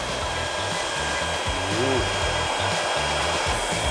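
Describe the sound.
A high-wattage hair dryer of about 1,800 watts, used with a hair-curling roller, blows a steady, loud, unbroken whoosh with a low motor hum underneath, alone and without talk.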